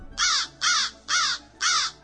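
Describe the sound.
A crow caws from a fir tree, four loud, harsh caws evenly spaced with short pauses between them, standing alone against a quiet background.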